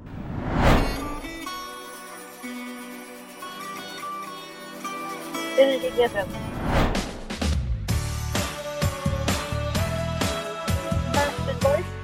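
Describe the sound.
A pop song intro plays in a music quiz. Sustained synth chords with a sweeping attack open it, then after a second sweep a punchy rhythmic beat with steady stabs kicks in.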